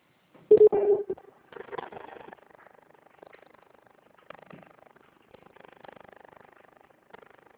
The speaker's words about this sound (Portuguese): Ah, mas deixa eu só atender uma ligação